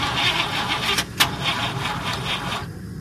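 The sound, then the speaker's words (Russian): A car's starter cranks in rhythmic whirring pulses while the engine fails to catch, a steady grinding turnover that keeps going without firing into an idle. “Дрожащие пальцы пытались вставить ключ в замок зажигания. Удар сзади. Автомобиль, немного оторвавшись от земли, пролетел вперед несколько метров. Стартер задрожал под капотом.”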